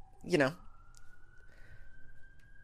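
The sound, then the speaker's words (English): An ambulance siren sounds as a steady, fairly faint tone holding at one pitch, following a brief burst of speech at the start. “hold for this ambulance.”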